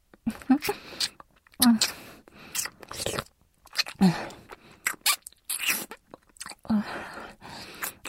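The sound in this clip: Eating and chewing food: moist, crunchy bites and chews come in short irregular bursts with brief pauses between them.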